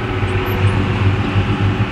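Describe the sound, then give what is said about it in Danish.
A farm tractor driving along, its engine giving a loud, steady low rumble with a slight rhythmic pulsing and no voices over it. “sådan lyder det altså fra Søren Højer Thomsens traktor, som i øjeblikket er ude at køre.”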